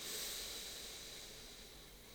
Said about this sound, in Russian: Давайте сделаем вдох